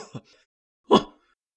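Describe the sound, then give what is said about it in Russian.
A loud sneeze from someone stirring on mail sacks in a mail train carriage: one sharp, brief burst after a few faint, soft sounds, then silence. “На почтовых мешках кто-то заворочился и громко чихнул.”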